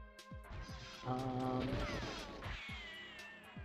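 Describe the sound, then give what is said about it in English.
A bomb exploding in a video game, with crashing, smashing impacts mixed into layered game music and electronic tones. The bursts hit near the start and again midway, loud against a busy, continuous backdrop. “Oh my! I just threw one of the bombs. I needed those bombs. They're not to be wasted.”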